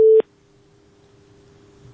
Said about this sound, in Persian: بله فکر کنم تماسشان قطع شده.